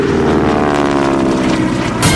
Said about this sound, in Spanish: Los motores empiezan a rugir, primero indecisos, después con fuerza. Y entonces el avión despega.